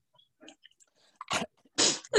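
Short, harsh coughs bring up phlegm from the throat: a few abrupt bursts near the end, with a sharp catch first and two rough, louder coughs after. Small faint mouth noises come before them, with no talking.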